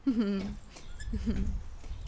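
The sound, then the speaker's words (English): A dog moans in a few low, drawn-out whines that waver in pitch, separated by a short pause, over a faint low background hum. “that's my dog moaning away there.”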